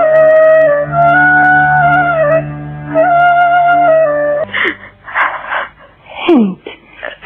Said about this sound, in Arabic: البكاء. لا لا تبكي يا هند